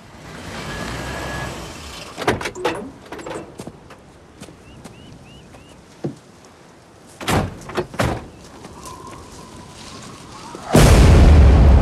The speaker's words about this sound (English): George and Kathy pull up outside the house and get out of the truck.